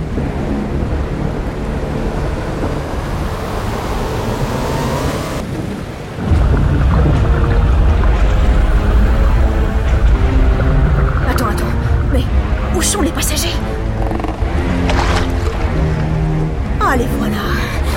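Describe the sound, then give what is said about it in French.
A thunderstorm at sea with a sinking ship, played as a sound effect: thunder and rain roll on continuously, and a deep, loud rumble swells up partway through and holds to the end. “Le tonnerre gronde, les voiles se déchirent, le bateau fait naufrage, il coule.”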